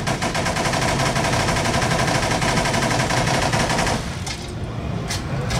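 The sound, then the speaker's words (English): Rapid fire from a video game gun with spinning barrels and a massive fire rate, a loud, unbroken stream of shots lasting about four seconds before it stops, leaving fainter scattered sounds. “So the Vladoff manufacturer, as you guys can see, bullet hose, as we like to call it at Gearbox. You have these spinning, massive fire rate barrels.”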